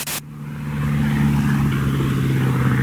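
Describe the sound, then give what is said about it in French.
Steady engine drone of a single-engine propeller plane approaching Paris at night on a transatlantic flight, a low, even hum that swells slightly after a brief burst at the start and then holds constant. “Ce ronron, c'est le bruit du moteur du Spirit of Saint-Louis, l'avion de Charles Lindbergh.”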